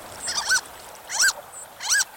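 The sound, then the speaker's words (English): Harlequin duck calling: three short, high, squeaky cries, each with a quick rising-and-falling chirp, spaced evenly over about two seconds against a faint hiss. “Get a good look at a harlequin duck at our website”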